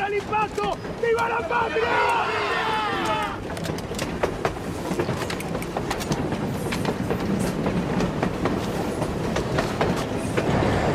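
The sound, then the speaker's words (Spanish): A train in a TV series scene: a steady rumble with rhythmic clickety-clack of wheels on the rails. A voice is heard near the start. “Y el tren ahora va a ponérsela.”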